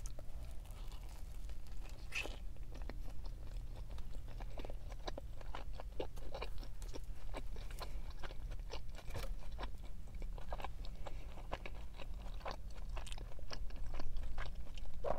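Chewing and crunching come from someone eating food with lettuce and mild salsa in a car. Many soft, crackly bites and mouth sounds repeat steadily over a low, constant background hum.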